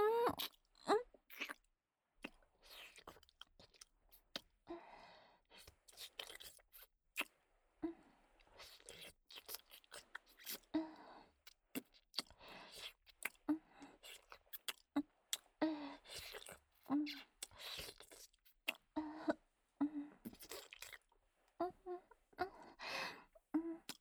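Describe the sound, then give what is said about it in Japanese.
Wet licking and kissing sounds of soft tongues entwining with hot breath, made up of many irregular smacks and slurps at a moderate level, mixed with faint breathy sighs and low moans. “熱い息を吐きながら、レロンレロンって、いっぱい柔らかい舌を絡めて、私を味わうように”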